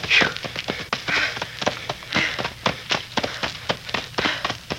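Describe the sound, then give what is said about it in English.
Feet running through knee-deep leaves among trees, a quick, steady rhythm of many crisp, rustling crunches, each stride a sharp burst of dry leaf noise. “Running through leaves up to my knees.”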